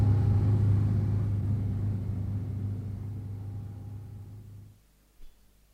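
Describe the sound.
A car drives off: a low, steady engine rumble gradually fades, then cuts out abruptly near the end, followed by a brief soft knock.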